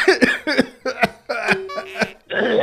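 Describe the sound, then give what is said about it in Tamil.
Coughing voiced by an actor playing an old character: a voice imitates the sound with a string of rough, throaty coughs and raspy bursts, each separated by short gaps and loud throughout. “அண்ணனுக்கு தான் வயசான character இரும்பி காமிக்கிறேன் நீ சின்ன தம்பி இளையவன் தானே இரும்புறிய உனக்கு ஏதாவது கொரோனா கிரனா வந்துருச்சாப்பா”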